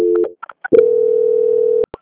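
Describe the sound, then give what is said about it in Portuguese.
A telephone tone plays during a call transfer on a bank's customer call line. A short tone and a few brief chirps lead into a steady, sustained tone just over a second long, which ends with two sharp clicks. No voices are heard. “Aguarde só um momentinho. Transferência.”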